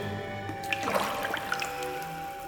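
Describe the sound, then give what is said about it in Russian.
Water drips in a cave, a few soft, sparse plinks over a faint, steady liquid wash, with no talking. “Со сводов падают прозрачные хрусталики воды. Тишина, всплески воды от весел.”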